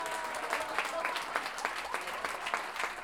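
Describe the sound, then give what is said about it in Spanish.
Audience applause at a payador festival awarding a counterpoint duel winner, steady dense clapping with a few sharper accents, moderately loud and without talk. “Manuel Sánchez, a quien le damos un aplauso también a cada uno de los participantes de este evento.”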